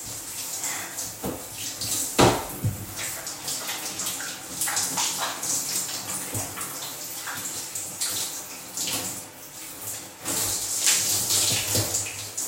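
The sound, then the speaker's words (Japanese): Water splashing and pouring as someone scrubs the whole body and rinses off sweat: an uneven run of gushes and splashes throughout, with several louder bursts between quieter trickling. “全身ちゃんとゴシゴシしてちゃんと汗を流しました。”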